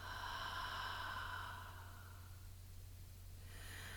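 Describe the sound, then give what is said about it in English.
Deep breathing during a guided breathing exercise: a long, airy breath fades out over the first seconds, then a quiet pause, and another breath begins near the end. “Again, inhale. And exhale.”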